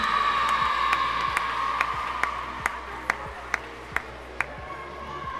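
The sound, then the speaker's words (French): An audience applauds prize-winning schoolchildren at a school tournament award ceremony: dense, steady clapping throughout, with a sustained tone and a series of sharp, evenly spaced pings above it. “On les applaudit bien fort. Bravo.”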